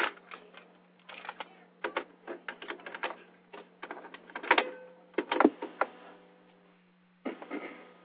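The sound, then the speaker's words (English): Mechanical clicks and clacks of a cassette tape being turned over in a tape recorder: many irregular sharp knocks and rattles over a steady low hum. “Yeah, I just have to turn the tape over.”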